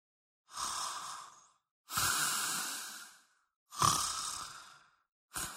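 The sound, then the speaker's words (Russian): A sleeping person snores in slow, heavy breaths: three long, hissing rasps separated by silent pauses, then a fourth that is cut short. “я двинулась на храп. А это точно был храп.”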